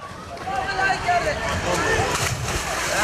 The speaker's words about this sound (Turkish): Ancak çocukların adresi ise Anzele Süs Havuzu. Günün her saatinde çocuklar buraya gelerek yüzüyor ve serinlemeye çalışıyor.